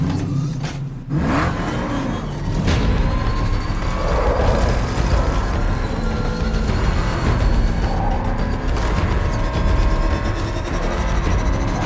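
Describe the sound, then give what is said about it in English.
In an audio drama effect, the Batmobile's engine roars as it races across Gotham City streets: a sudden burst near the start, then sustained loud revving and whirring rumble with no voices. “Seconds later, Batman is racing across the streets of Gotham City in the Batmobile towards Red Robin's location.”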